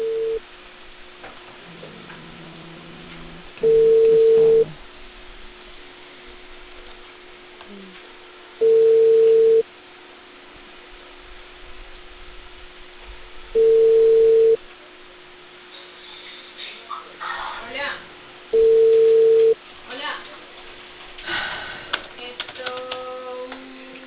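Telephone ringback tone heard while a call is being placed: four steady, mid-pitched tones, each about a second long and spaced roughly five seconds apart, over low background noise.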